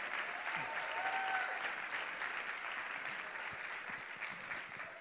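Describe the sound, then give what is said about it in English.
An audience at a church service claps in sustained, dense applause, many hands at once, holding steady throughout and easing off only slightly toward the end. “Give them another hand clap. They're worthy of.”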